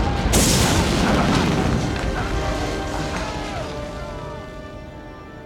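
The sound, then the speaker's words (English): Photon grenade explosions in a science-fiction battle: a sudden loud blast near the start gives way to a long, heavy rumble that slowly fades over the following seconds. “They're using photon grenades. We've got to take cover.”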